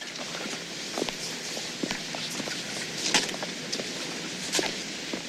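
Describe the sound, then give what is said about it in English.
Footsteps of two people, one of them limping, trudging toward city hall steps: a steady series of soft scuffing steps over a constant background hiss. “Ben and Mally trudge towards the city hall.”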